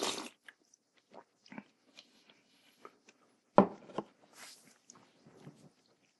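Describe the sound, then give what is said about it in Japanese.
Bites into kintsuba, a Japanese sweet bean confection, come as a few soft, faint crunching and chewing sounds, with one louder bite midway, heard alone. “あ、結構ガッツリいきますね、金つば。”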